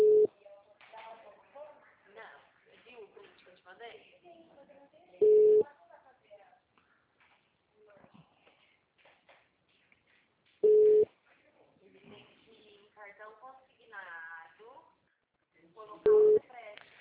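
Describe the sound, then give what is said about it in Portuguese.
Telephone line tones after a dropped call: four short, steady low-pitched tones recur at even intervals of about five seconds, with a voice talking in between. “estava conversando com o senhor e eu acho que a ligação caiu. Estou tentando retornar, mas não está chamando.”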